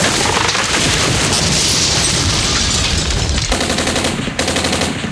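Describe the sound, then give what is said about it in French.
An unrealistic, synthetic machine-gun sound effect: a loud, unbroken rapid rattle of dense gunfire with a booming low end, running steadily for about five seconds. “une mitraillette qui n'est absolument pas réaliste.”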